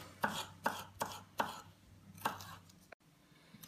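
A knife chops vegetables for frying in oil, making five sharp, crisp strikes. Four come in a quick, steady rhythm and the last follows after a short pause. The cutting is quiet overall.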